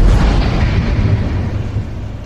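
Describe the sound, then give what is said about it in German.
Cannon fire from enemy guns in an audio drama, heard from behind a thick castle wall: a continuous, deep, heavy rumble of booms, loud and sustained throughout without clearly separate blasts, no talk. “Der Donner der neuen feindlichen Geschütze trifft Leo selbst hinter der dicken Burgmauer tief in den Magen.”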